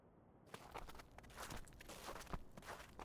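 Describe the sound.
Footsteps walk along a quiet city street at night: a steady series of soft, even steps that begins after a brief pause, over low background hiss.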